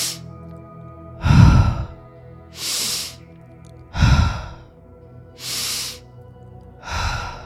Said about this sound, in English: So inhale through the nose, nice forceful. Exhale. Inhale.